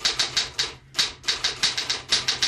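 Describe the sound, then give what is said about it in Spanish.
Rapid mechanical keystrokes clatter from a typewriter, each a sharp crisp strike in quick succession, with one brief pause partway through before the typing resumes at the same brisk pace. “Entonces, rodeada de libros y de papeles, se sienta la máquina de escribir. y se pone a escribir El Rincón de los Niños”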